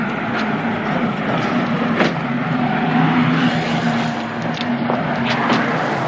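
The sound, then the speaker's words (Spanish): A company car's engine runs in front of a house, a steady low hum with a few faint clicks and knocks over it. The level stays even for about six seconds. “Antoine detiene el coche de empresa delante de la casa de los Darbón.”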